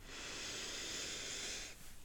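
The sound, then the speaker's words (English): A deep breath drawn in during a guided breathing pause, a soft, steady airy hiss lasting nearly two seconds before it stops, faint and alone. “let's pause and take a nice deep breath.”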